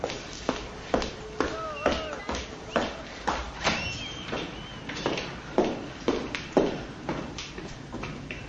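Footsteps of a woman in a black chador arriving at a workplace: many steady, evenly spaced taps of moderate loudness in a regular walking rhythm.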